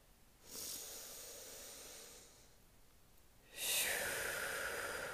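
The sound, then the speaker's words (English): A slow, deep human breath: a long, faint airy inhale, a short pause, then a louder, breathier exhale, with no talking. “Maybe we can take a deep breath to embody, integrate that a little deeper.”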